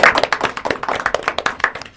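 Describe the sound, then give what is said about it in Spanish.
Audience applause: many sharp hand claps in a dense, uneven patter that rises and dips in loudness over two seconds, with no talking. “Aplauso grande a las chicas que estuvieron operando.”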